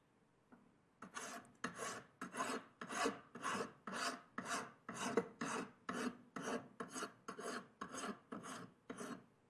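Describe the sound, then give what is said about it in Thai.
Rough filing of metal with a hand file, many steady back-and-forth rasping strokes in an even rhythm, each a gritty scrape, fairly faint and heard alone as the bare silver metal surface starts to show. “ในขั้นของการตะไบหยาบนะครับเราจะตะไบแต่เพียงเท่านี้นะครับเริ่มเห็นตัวของผิวโลหะที่เป็นสีเงินออกมาบ้างแล้วนะครับ”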